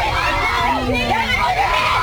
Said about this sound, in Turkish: Tramvayda arbede yaşanırken yolculardan biri çocukların annesine saldırdı. Birbirine giren taraflar çığlık ve yumruk atarak kavgaya devam etti.